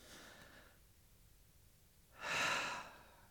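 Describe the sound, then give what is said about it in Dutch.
Deep breathing during a guided breathing exercise: two airy, breathy whooshes, a softer one at the start and a louder, fuller one near the end, separated by a quiet pause. “Dus adem in, Jezus, adem Jezus in, 1, 2, 3.”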